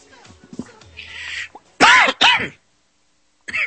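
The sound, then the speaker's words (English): Someone chokes and coughs, producing harsh, strained throat-clearing bursts. Two loud coughs come close together, then after a short silence there is a briefer one. “Excuse me. Sorry about that. Choking is not a funny thing,”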